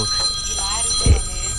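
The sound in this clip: A telephone rings with steady high bell-like tones that run through the whole short clip. A dull low thump comes near the end.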